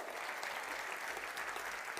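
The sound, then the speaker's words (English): Audience applause: dense, continuous clapping from a crowd, steady and fairly even in loudness throughout, with no distinct voices. “Let's clap it up for them, that's awesome.”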